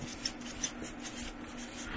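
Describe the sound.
Writing during a talk on faith produces faint, scratchy rubbing strokes that continue steadily at low volume, with a couple of slightly sharper scrapes. No voices are heard.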